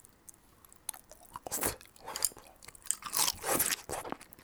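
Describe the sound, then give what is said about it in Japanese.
Simmered bamboo shoot is chewed with a series of crisp, crunchy bites and softer mastication in between, fairly quiet and irregular in rhythm, with no talk. “でもまるで名コンビのように横にタケノコがありますよ。”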